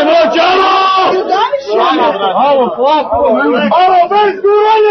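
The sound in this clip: Loud shouting and chanting from football fans crowding a ticket window as it opens, after a near all-night wait for scarce match tickets; raised voices carry sustained, swooping calls that rise and fall continuously with no pause.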